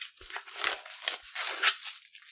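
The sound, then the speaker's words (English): Tape and bubble wrap being torn off a package wrapped about four times around, heard as a series of rough ripping and crinkling bursts, some sharper than others. “I will be spending much of our podcast time popping the bubble wrap. He wrapped it. Oh, my God. He wrapped it like four times around.”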